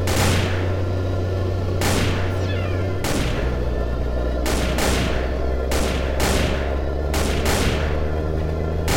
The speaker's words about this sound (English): She aims her implanted weapon barrel all too near front wheels of the John Deere and blasts away at the giant rubber tires with high penetration bullets.